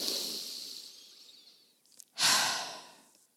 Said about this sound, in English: I want you to take one deep breath.